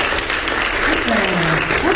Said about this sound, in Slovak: Máte 20 bodov hneď a teda aj tlieskajú vám okamžite.